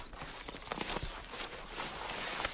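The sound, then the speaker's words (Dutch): Footsteps of a farmer walking onto fallow, overgrown land in a mined area, pushing a metal detector ahead of him: several soft, uneven crunching steps, faint and irregular, with no talk. “En nu loopt de boer zijn land op. Met de metaaldetector voor zich uit.”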